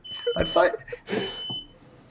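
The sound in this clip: A fire alarm beeping: a high, thin, steady tone sounding in two stretches, faint beneath a voice talking.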